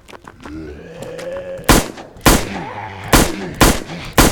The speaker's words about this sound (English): the second weapon is the Teutonic, and it's a pistol. And it sounds like that.